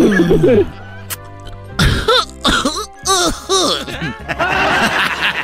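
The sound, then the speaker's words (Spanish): A person in a costume coughs after smoking marijuana: a few harsh, throaty coughs and throat clearing mixed with chuckling, with brief pauses between bursts. “es Barney tosiendo, güey, pero marihuana así”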